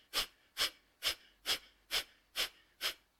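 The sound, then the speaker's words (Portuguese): Seven forceful abdominal exhalations from a breathing exercise: short, breathy puffs in a steady, evenly spaced rhythm, each sharply pushed out, fairly soft and with no talk. “vamos inspirar a meio caminho e vamos começar as expirações ritmadamente e forçadamente na zona abdominal, assim.”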